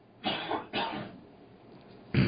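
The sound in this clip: Throat clearing from someone with a frog in the throat and a cold coming on: three rough, husky bursts, two close together, then a pause and a final louder one.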